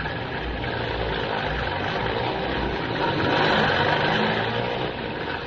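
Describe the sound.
A jeep engine idles with a steady, rough rumble that swells slightly midway and then settles. No one speaks over it.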